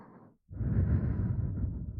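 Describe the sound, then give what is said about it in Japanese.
Breath blown into the ear in ASMR style: a short, soft puff, a brief pause, then a longer, fuller airy exhale that stays steady and close before trailing off. “まだお耳に吐息吹きかけてるだけなのに、かわいいな。”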